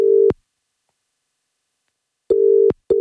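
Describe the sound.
Telephone call tone heard while a number is redialed: steady, mid-pitched electronic beeps, a long one, then a pause, then two shorter bursts close together.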